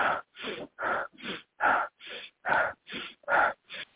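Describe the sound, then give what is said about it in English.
A person vocally imitates a forceful breathing exercise with about ten rhythmic, breathy huffs, evenly spaced and fairly loud, each cut off sharply. “experimenting with a new breathing pattern, which is essentially the Wim Hof method of breathing on a little bit toned down Wim Hof, so that people aren't noticing you going like,”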